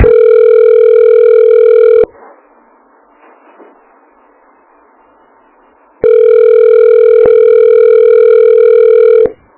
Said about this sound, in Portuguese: o ramal está ocupado, querida